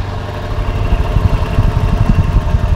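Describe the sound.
A luxury limousine engine idles with a low, steady rumble carrying a soft, rapid pulsing beat, modest and fairly quiet, growing slightly fuller after the first second.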